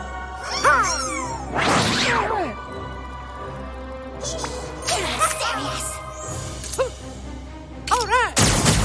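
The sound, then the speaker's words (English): Mario attack sounds from a video game: punchy impact and whooshing effects burst out several times, mixed with short voiced character exclamations over a steady low hum. “So here is Mario doing some attacks in the game.”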